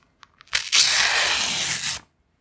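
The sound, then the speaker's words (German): Paper sheets with crossed-out writing being torn, one long continuous rip lasting over a second, preceded by a few small crinkles and clicks. “Blätter zerreißen.”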